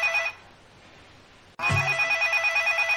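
A mobile phone left at a DJ booth rings: a short burst of ringtone, a pause, a dull knock, then a loud electronic ring pulsing rapidly and steadily.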